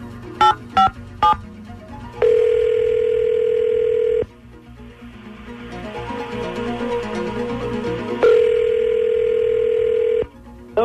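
Telephone tones as a call is placed: three quick dialing beeps, then a steady tone lasting about two seconds, a stretch of soft hiss, and a second matching tone, with no voices.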